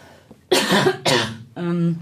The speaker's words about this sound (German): Ja, ich muss einmal kurz husten, sorry.